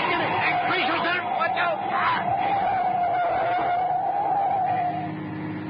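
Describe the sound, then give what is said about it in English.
Car engine roaring during a night chase as one car swerves to run another off the road, a sustained engine whine under excited voices and shouting. “He's coming up at us. Can you see who it is? No, it's too dark. Jarro, watch out. He's trying to run us off the road.”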